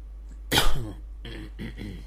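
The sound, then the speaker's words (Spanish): A person coughs: one sharp, loud burst followed by a few softer, rougher bursts, like throat clearing. “Bonita tos.”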